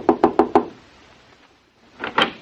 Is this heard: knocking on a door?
yes